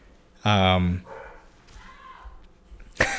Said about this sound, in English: I don't know if our listeners can hear my dogs barking right now, but it's driving me a little nuts.